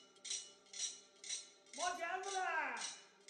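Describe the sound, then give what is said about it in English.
Clanking steel plates from a knife sharpener announcing his arrival in the street, struck in a steady series of bright metallic bursts about half a second apart, with a drawn-out voiced cry rising and falling over the latter half. “One that does live on is the knife sharpener's cry and the clanking steel plates that the sharpeners use to announce their arrival.”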